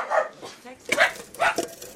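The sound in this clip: A dog, belonging to a staff member in a high storage hall full of long shelves, gives a few short, sharp barks in separate bursts.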